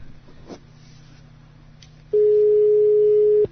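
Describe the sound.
Ringback tone of an outgoing telephone call: after a soft low hum, one loud, steady, mid-pitched tone begins and holds at a constant pitch to the end.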